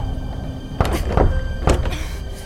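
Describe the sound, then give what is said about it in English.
Dull thuds and knocks from a stuck door being forced, a few heavy impacts spaced irregularly over a steady low background hum, with no voices. “The door's stuck. The door's stuck!”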